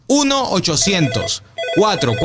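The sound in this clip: A telephone rings after a toll-free number is dialed, a loud warbling ring in two bursts separated by a brief gap.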